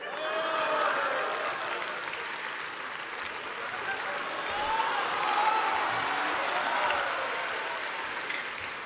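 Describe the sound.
Audience applause in a live Chinese stage show as a performer is called out, a sustained, even wash of many hands clapping for around nine seconds, swelling slightly midway before easing.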